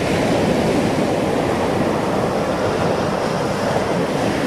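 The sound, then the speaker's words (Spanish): Surf washes onto a beach in a steady, loud, unbroken roar of breaking waves with a windy hiss, holding an even level throughout with no voices. “Escuchá, pero este es el sonido de la playa.”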